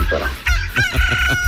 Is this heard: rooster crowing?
yes